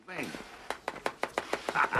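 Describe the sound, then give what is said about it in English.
A knife swiftly chops celery in a quick run of about seven evenly spaced, crisp strikes, with people talking just before and after the chopping. “He swiftly chops celery in 1991's Frankie and Johnny.”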